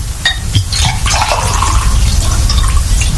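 Water sloshing in a handled bottle during a curse-lifting ritual: a loud, steady, splashing wash with a couple of sharp knocks near the start.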